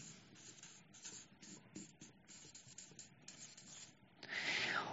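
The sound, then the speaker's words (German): A word is written by hand with a faint, scratchy rubbing of strokes broken by brief pauses, growing louder and denser in the final second. “ich schreibe mal Rettung.”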